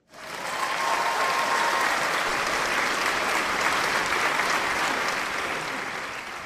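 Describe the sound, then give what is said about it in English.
Studio audience applause swells in quickly, then holds as a full, sustained roar of clapping before easing off slightly at the close. “You guys, the studio audience is a new addition to the show. They're called the studio audience. Give yourselves a hand.”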